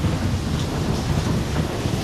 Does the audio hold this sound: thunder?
yes